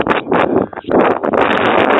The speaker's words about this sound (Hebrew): אני עומד על המפסת ויש רוח.